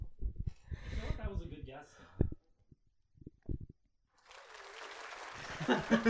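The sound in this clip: Applause from a studio audience swells in after a stretch of voices and scattered noises, a dense clapping roar that builds and stays loud to the end.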